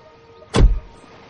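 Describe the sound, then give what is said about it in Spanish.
A car's remote central locking releases with a single short, sharp mechanical clunk as the doors unlock at a parked car outside a barracks. The burst is brief and loud against a quiet background. “camina varios pasos hasta su coche, activa la apertura automática, mira alrededor, entra en el vehículo.”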